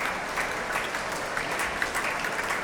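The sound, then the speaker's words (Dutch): Concert audience applauding two performers as they leave the stage, a steady, even roar of many hands clapping with no voices over it. “Afscheid nemend van een dankbaar publiek dat hier op het podium, naast de trap, opnieuw weer applaudisseert voor deze twee.”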